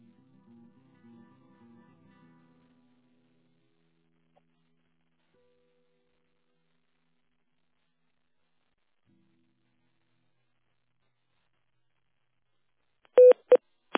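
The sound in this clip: Telephone tones sound while a call is being transferred. A few short, loud electronic beeps come close together near the end, after a long stretch of near silence on the line.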